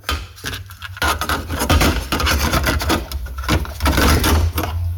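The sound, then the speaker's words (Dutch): A small cassette tape is inserted into a cassette deck: continuous plastic rubbing and rasping scrapes with a sharper knock, over a low steady hum. “Het geluid van het plaatsen van zo'n fijn cassettebandje in mijn fantastisch cassettedek om zo meteen weer te kunnen digitaliseren.”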